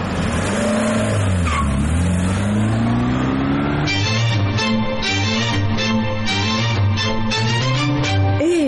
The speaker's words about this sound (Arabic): لما اشوف التاكسي اللي جاي ده. طيب شاور له.